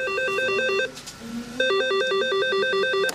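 A telephone ringing on a radio station's phone-in line at 3 a.m.: two loud bursts of electronic warbling ring separated by a short pause, the second cut off at the end.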